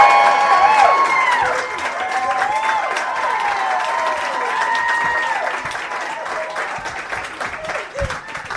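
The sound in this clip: A live audience at a stage show cheers and applauds, with dense clapping and high whoops that are loudest at the start and then slowly taper off.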